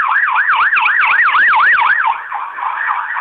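Ambulance sirens sound at the scene of a serious attack in Jerusalem, with many ambulances present. A loud, continuous siren wails in a rapid, regular rise and fall of pitch, then shifts to a steadier, fainter tone near the end.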